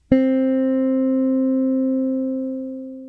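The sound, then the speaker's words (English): A single note rings from a guitar's second string, pressed at the first fret and plucked alone. The one pluck sustains steadily and gently fades over about three seconds. “then you would press on the first fret of string 2 and only play string 2. And it sounds like this.”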